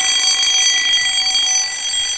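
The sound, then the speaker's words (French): A wristwatch alarm rings with a loud, shrill electronic tone that holds continuously and steadily throughout, with no pause or talking. “J'ai la sonnerie. C'est bizarre.”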